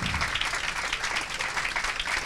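An audience applauds as a guest is welcomed to the stage. The clapping is brief, dense and lively, holding at a steady level from start to finish.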